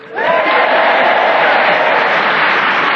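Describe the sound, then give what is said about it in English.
An enthusiastic theatre audience in Guildford, Surrey, cheering and applauding. The roar swells sharply in the first moment, then holds loud and steady to the end. “And as you can hear, we have an enthusiastic theatre audience drawn from many areas of the fine county of Surrey who've come on to show their enthusiasm”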